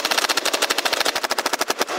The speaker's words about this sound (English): turned his engineering eye on the Nerf gun. Shoot.